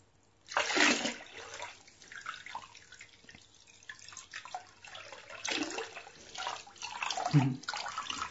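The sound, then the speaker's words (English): Water rinsing someone off, faint pouring and splashing in a few uneven surges, louder at the start and again near the end. “Rinse you off a little.”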